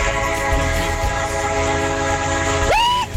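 Train horn sounded by a train driver: a loud, sustained chord of stacked tones held steadily for about three seconds, with a brief sliding tone near the end.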